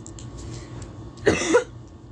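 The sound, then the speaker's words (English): Coughing from a person with a bad cough: a short, harsh burst of a couple of quick coughs over a quiet background, with no talk. “having major cough problems right now”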